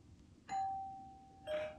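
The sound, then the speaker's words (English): A doorbell rings through an apartment in a two-tone ding-dong: a bright first chime, then a slightly lower second chime about a second later, each ringing clearly and alone. “After the 15th ring of the doorbell had rung,”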